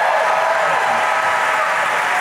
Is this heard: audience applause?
yes